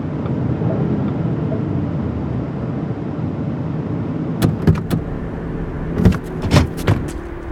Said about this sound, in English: Yo, I gotta pull up in this gas station right quick.